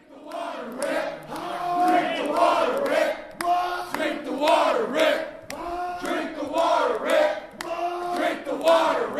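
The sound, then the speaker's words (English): A crowd of protesters chants a short slogan in unison outside the room where Michigan Governor Snyder presented his state budget proposal to lawmakers. The loud, steady chant repeats four times in an even rhythm, with many voices blending together. “That's the sound of protesters outside the room where Governor Snyder today presented his $54.9 billion budget proposal to state lawmakers.”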